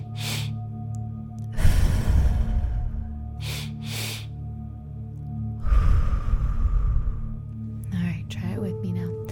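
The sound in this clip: Breathwork: a two-part inhale through the belly and then the chest, a hold, and a release. Loud, breathy rushes of air repeat over a low steady hum, with two long breaths separated by a few shorter ones.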